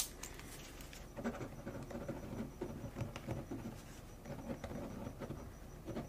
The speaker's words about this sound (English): Okay, I'm just gonna write a quick note.